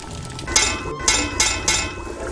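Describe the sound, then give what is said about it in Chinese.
A few bright metallic clinks from tapping the edge of a pot of sour soup with fried fish, evenly spaced and sharp over a low, steady background. “您最后敲两下这个锅边是什么意思？”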